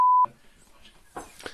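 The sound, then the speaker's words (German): A censor beep masks a spoken word: a single steady, high-pitched electronic tone lasting about a quarter second, loud and clean, followed by quieter muffled talking. “das muss ich jetzt wirklich piepen”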